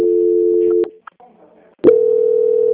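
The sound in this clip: Steady, low telephone line tone heard during a call transfer. It holds, breaks off into a few clicks and a brief near-silence, then starts again loud and continuous.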